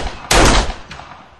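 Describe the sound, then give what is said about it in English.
Gunshots from a pistol fired by an Olympic free-pistol medallist: one loud, sharp report bursts out, followed by a fainter, shorter second crack. No voices are heard. “Nice shooting, Mildred.”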